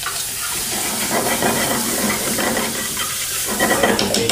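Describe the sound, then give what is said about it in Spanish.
Garlic cream and onion fry quickly in a pan over high heat, giving a continuous loud hiss and sizzle with a crackling texture throughout and no talk. “Vamos a freír rápidamente.”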